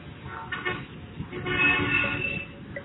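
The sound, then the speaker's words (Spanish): A car horn honks in a street, a sustained, steady tonal blast standing out over a low background rumble. “El claxon del coche que acababa de sonar en la calle se repetiría 3 veces más.”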